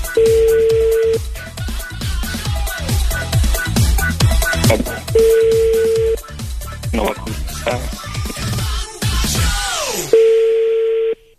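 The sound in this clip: Ringback tone of an outgoing telephone call, sounding as three steady, even-pitched bursts roughly five seconds apart over loud, busy music.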